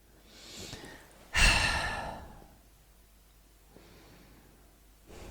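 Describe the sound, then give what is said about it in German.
Deep breathing during a guided relaxation exercise: a soft inhale, then a loud, sighing exhale that fades slowly, followed by quieter breaths. No one talks. “Nimm noch mal zwei tiefe Atemzüge.”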